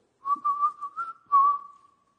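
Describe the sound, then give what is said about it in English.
A person whistles a short tune: a run of clear, bright notes in quick succession, then a longer held note that fades out, heard alone. “If I were to whistle,”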